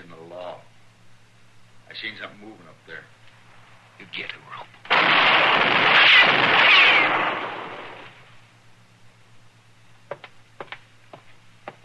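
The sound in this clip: Gunfire erupts during a tense shootout around a stable stall: a loud, roaring burst lasts a few seconds, with brief sharp cracks later on. Men talk before and after.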